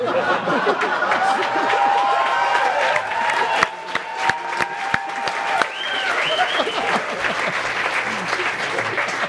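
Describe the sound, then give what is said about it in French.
Crowd applause fills the whole stretch, loud and continuous, with voices and a few sharp clicks mixed in. “Monsieur Coderre applaudit”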